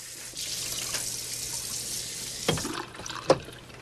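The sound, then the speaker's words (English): Tap water runs steadily at a kitchen sink by a window as dishes are washed, a continuous hiss broken by two sharper knocks near the end. “In the kitchen, David washes up at the sink by the window.”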